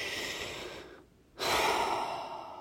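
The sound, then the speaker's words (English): A long, deep breath: a slow, fairly quiet airy inhale, a short pause, then a long, audible breath out that gradually fades. “a long, deep breath”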